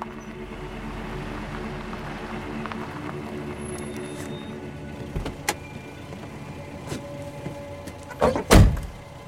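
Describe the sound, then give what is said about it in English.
A saloon car pulls into the driveway of a large house at night, giving a low, steady engine rumble, then a few sharp thuds near the end. “The headlights pick out the rickety balustrade of a porch as the car roars past in the depth of night. The saloon pulls into the driveway of a substantial lamplit property.”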